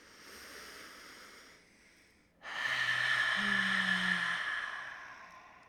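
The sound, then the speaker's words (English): A slow, deep breath is drawn in through the nose, soft and airy, then after a short pause a longer and louder exhale rushes out through the mouth before fading away. “take a deep breath in through your nose. And let it out your mouth. Perfect, that's it. That's gonna sound like this.”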